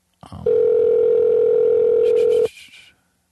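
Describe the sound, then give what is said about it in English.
A telephone dial tone hums at a steady, even pitch for about two seconds while a number is dialed, then cuts off abruptly, with a few brief higher tones just before it stops. “We give the number. Yep. And we're dialing.”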